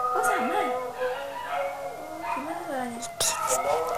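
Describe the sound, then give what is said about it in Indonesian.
Whining, howl-like dog cries waver up and down in a few drawn-out calls, with voices talking through them and a sharp knock near the end. “Suara apa itu? Anjing. Anjing dulu apa? Anjing kan suaranya kan begitu.”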